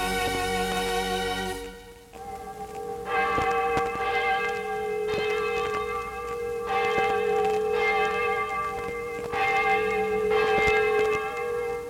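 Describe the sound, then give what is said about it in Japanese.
An Angelus church bell rings out in repeated, evenly spaced strikes, each leaving a bright, sustained metallic hum that lingers between blows. “時に聞くアンジェラスの鐘って素敵、何か心洗われる思いが”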